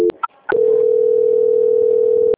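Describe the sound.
Telephone tones during a call transfer: a few short electronic beeps, then a long, loud, steady tone that holds unbroken until the line cuts off.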